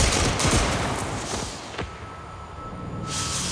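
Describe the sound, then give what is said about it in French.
Firing squad volley of gunshots at an execution: a few sharp, broad cracks burst out over a dense, rumbling noise, with the shots close together near the start and the roar thinning afterward. “il est donc condamné à mort et fusillé. Formez le peloton. On joue. Feu.”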